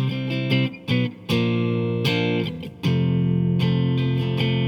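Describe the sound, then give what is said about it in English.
A distorted electric guitar plays a chromatic chord sequence, C moving through B natural to B flat. The chords are strummed and ring loudly with sustained overdriven tone, and there are brief gaps between some of the changes. “So that would be C, B natural, and then B flat. And it sounds like this.”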